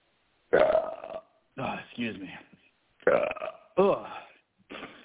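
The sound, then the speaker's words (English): A series of loud, croaking burps, each a drawn-out tonal belch, follow one another with brief silent gaps between them and no other sound. “If you're gonna burp, mute the phone”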